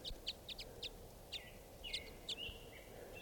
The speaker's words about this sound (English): So recording, there's a flock of five or six type fives right here in the aspens.